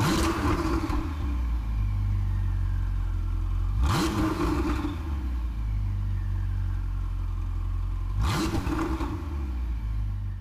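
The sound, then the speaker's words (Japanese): A 2017 Ferrari 488 GTB's 3.9-litre twin-turbo V8 idles with a low, steady hum, broken by three short, sharp revs spaced a few seconds apart, each rising quickly and then settling back to idle. “3.9リッター V8 ツインターボから生まれるフェラーリサウンド2017年式フェラーリ 488GTB”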